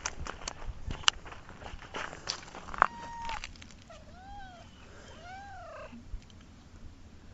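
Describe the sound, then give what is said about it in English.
A female cat cries twice, each a drawn-out, wavering meow that rises and then falls in pitch. Footsteps and handling noise come before the meows, and no one speaks. “This one's name is. It's lots of cat names to remember. It's something like Gloria or something like that. She cries a lot.”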